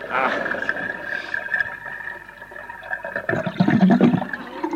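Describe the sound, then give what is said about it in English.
A sink's plumbing makes a continuous gurgling, rushing water noise that swells louder near the end, with a low rumble underneath. “It's the plumbing”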